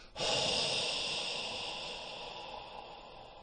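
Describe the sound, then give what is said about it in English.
A cleansing-breath exhale, a breathy "ha" made with the tongue curved up against the roof of the mouth: one long, loud, airy hiss that starts abruptly and fades gradually over about three seconds. “And then you want to exhale in what's known as the cleansing breath, where you curve the tongue up against the roof of the mouth so that you get this ha sound where it's like,”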